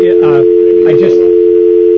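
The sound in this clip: A steady telephone dial tone after a caller's line has dropped, one continuous unbroken hum held at a single pitch, loud throughout, with a voice briefly talking over it.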